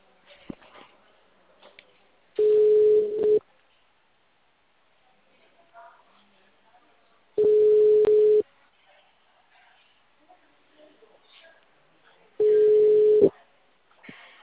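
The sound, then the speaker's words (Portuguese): A telephone call being placed, heard as three steady mid-pitched tones of about a second each, evenly spaced with long quiet gaps that hold only faint clicks and background noise. “Liguei pra. Eu tô ligando.”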